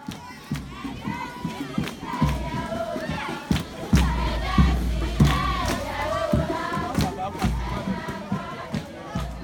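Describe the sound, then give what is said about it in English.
Ghanaian villagers shouting and cheering together at a welcoming ceremony, a dense crowd of voices with repeated calls and occasional thuds throughout. “As the villagers celebrate the arrival of volunteers to build a library for their community, they hold a welcoming ceremony to bless the land the library will soon stand on.”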